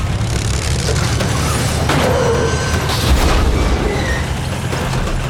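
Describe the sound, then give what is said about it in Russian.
Crushing crash and heavy rumble as a tank drives over a truck: a loud, sustained wall of grinding, booming noise with metallic impacts and no quiet gaps. “Но вот танк наезжает на грузовик.”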